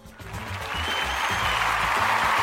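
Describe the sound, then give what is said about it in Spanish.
Audience applause swells from a light patter into a dense, loud wash of many clapping hands, building steadily over a couple of seconds. “Gracias, gracias, gracias. Bueno, pues como veis, tenemos, tenemos hasta público hoy. Tenemos hasta público.”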